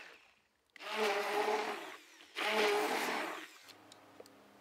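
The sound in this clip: A blender purées cooked, peeled and diced beetroot with oil in two loud, whirring bursts separated by a short pause, followed by quieter faint clicks.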